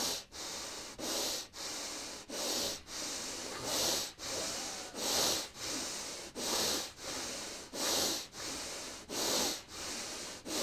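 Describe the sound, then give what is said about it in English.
Quick, deep breaths in and out through the nose repeat many times in a steady, rapid rhythm during an energizing breathing exercise. Each loud, airy rush is separated by a brief gap, and no one speaks. “we're just going to take some really quick deep breaths just to pump up the energy. So it's just going to be in and out through the nose like this.”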